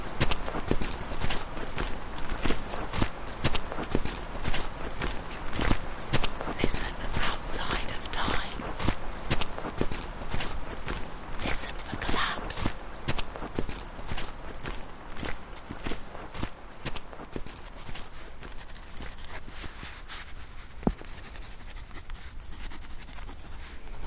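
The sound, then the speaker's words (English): Footsteps of someone walking on foot, a steady run of many crisp, regular steps that continues through the whole stretch at an even pace. “The final approach is best made on foot to experience a sense of the place and adjust to the ancient rhythm of walking.”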